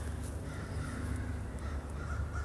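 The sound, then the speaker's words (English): Birds call with crow-like caws from a hillside overlooking a college campus in Asheville, North Carolina, in spring. A few caws sound over a steady, noisy outdoor background. “You can hear the birds in the background.”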